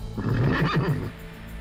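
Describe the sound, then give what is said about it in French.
A horse whinnies once in a long, wavering, harmonic call that rises and falls, loud and alone with no talk. The horse is on a long overland journey in sweltering heat. “Les chevaux tirent la langue, il fait une chaleur à crever.”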